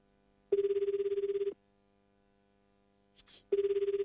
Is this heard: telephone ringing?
yes